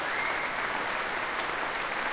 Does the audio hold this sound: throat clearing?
no